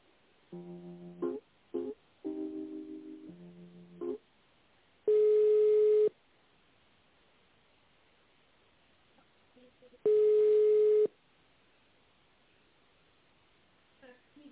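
Phone line tones during a call transfer: a few short tonal chirps, then two long, steady ringing tones about five seconds apart, separated by near silence.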